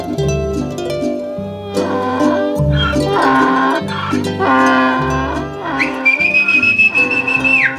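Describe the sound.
A muleteer's whistle, given as a long, steady, high-pitched note near the end. It sits over loud, continuous tonal sound with a harmonic, music-like texture.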